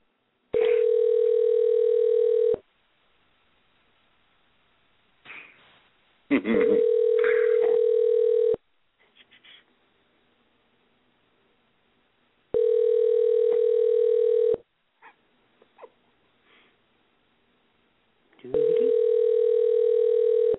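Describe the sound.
A telephone call ringing through to an answering machine: four long, steady electronic ring tones of about two seconds each, evenly spaced, with quiet gaps holding faint low murmurs.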